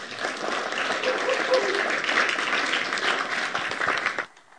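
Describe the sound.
Warm audience applause greets a couple as they come up to speak at an evening event. The clapping is dense and steady, then stops abruptly near the end.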